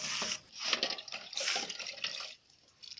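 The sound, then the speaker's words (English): Running water at a kitchen sink as utensils are washed with soap: a steady splashing rush with slight surges, which drops away near the end and then returns briefly. “We wash utensils using soap. And she's going to wash all of them, and after she will dry them on a rack,”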